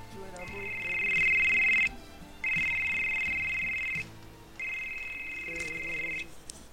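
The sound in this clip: A telephone ringing for an incoming call, with three long electronic ring bursts of a high, steady warbling tone and short gaps between them, over faint voices underneath.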